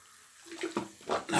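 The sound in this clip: Hot water runs from a tap in short rushing, splashing surges that grow louder toward the end, with no voices.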